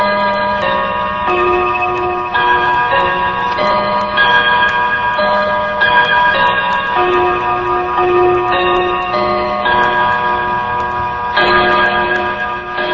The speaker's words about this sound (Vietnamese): Tiếng trống càng lúc càng dồn dập, người xem đều nín im thinh thích. Từ lầu chuông xa xa, tiếng chuông vọng lại cấp bách.